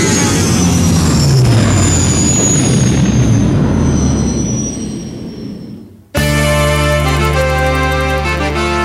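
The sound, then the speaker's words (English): A powerful spaceship engine roars as the craft lifts off the surface of a moon. The loud, rushing rumble carries high whining tones for about six seconds, then cuts off sharply as music begins. “pulls back on the throttle and the powerful spaceship lifts off the surface of the fourth moon of Ogana.”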